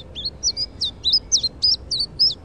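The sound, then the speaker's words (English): A bird gives high, thin, slightly down-slurred call notes with a melancholy tone. Many short chirps repeat in a quick, fairly even series over a faint low background hiss. “And now this bird has a somewhat more melancholy and slightly down-slurred call”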